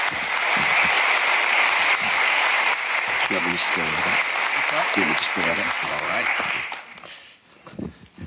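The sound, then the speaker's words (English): An audience applauds to welcome a speaker: sustained crowd clapping for about seven seconds, with a voice talking over part of it, then fading out quickly. “And so would you please welcome Russell Moore.”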